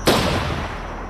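A single pistol gunshot: one loud sharp crack followed by a long, slowly fading rumbling tail, with no voices.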